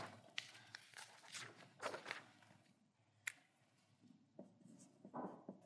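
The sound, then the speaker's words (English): Faint scratching of a definition being written out by hand, with irregular strokes and small taps that rise and fall in short bursts. “And each word is important here. I guess I'll write that down.”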